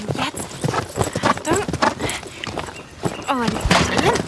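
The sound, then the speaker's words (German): Rapid clip-clop of a pony's hooves as it gallops off during children's pony games, a quick, steady run of hoofbeats throughout, with some vocal sounds mixed in. “Kaum ist sie dran, prescht sie mit Carlina los”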